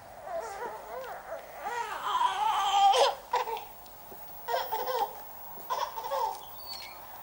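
A frightened baby cries in a string of wavering, rising-and-falling wails that grow loudest around the middle, then breaks into several shorter sobbing bursts separated by brief pauses.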